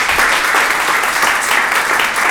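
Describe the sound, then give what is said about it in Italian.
Audience applause at the close of a roundtable event: dense, continuous clapping from many hands, loud and steady throughout without any talk over it. “Per Roberta Pinotti, Piero Formenti, Mario Zanetti e Stefano Messina vi chiedo un grande applauso, grazie di essere stati con noi”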